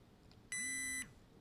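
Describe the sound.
A single clean, high-pitched electronic beep from a small, thin rectangular device switching back into its tone-and-vibration mode after a button is held down. The beep lasts about half a second and stands out against a faint, quiet background.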